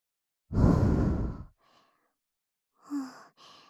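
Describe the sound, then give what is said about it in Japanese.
Gentle blowing of breath: a long, soft, breathy exhale, then a brief faint puff and a couple of shorter puffs, one carrying a slight voiced tone. “そんじゃ、今度はもうちょっと強く、ふうふうってしてあげるね。”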